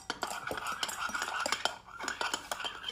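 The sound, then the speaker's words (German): A spoon stirs a colourful drink of blue and red yogurt in a glass, making many quick, light clinks and scrapes in an uneven rhythm. “Sie rührt gerade ihren Smarty Drink um.”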